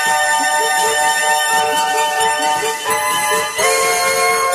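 Computer game music in full stereo from personal-computer entertainment software, a rich synthesized tune with layered sustained chords and melodic notes, loud and continuous apart from two brief dips.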